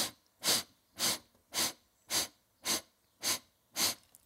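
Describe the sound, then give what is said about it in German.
Seven short, evenly spaced sniffing inhalations through the nose during a breathing exercise, drawing breath in eight parts: breathy hisses at a steady rhythm of about two per second, with quiet gaps between. “Acht Teile einatmen.”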